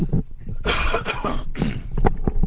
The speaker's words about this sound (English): So I'm going to take the headset off and have a little cough.